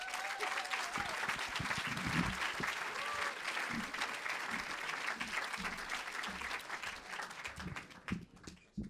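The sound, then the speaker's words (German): A comedy or spoken-word stage audience applauds: dense, sustained clapping with scattered cheers, steady and loud throughout, fading slightly near the end. “Einen herzlichen Applaus für Pablo Dreu, bitte.”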